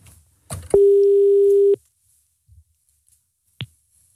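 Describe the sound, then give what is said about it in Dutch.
An outgoing phone call gives one steady ringing tone lasting about a second. A click comes just before it, and faint brief clicks and a short blip follow. “Kunnen we even Bram bellen, jongens? Even Bram krikken.”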